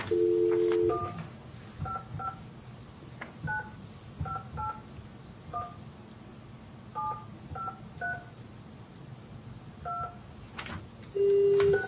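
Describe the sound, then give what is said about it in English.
A telephone keypad dials a number: a long string of short electronic beeps at an uneven pace, opened and closed by a longer steady tone. “No, you dial the number, the 9, the 1.”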